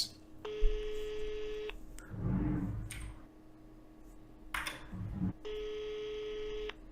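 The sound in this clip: Telephone tones from a call being dialed, in two long steady bursts separated by a gap filled with rustling and handling noise.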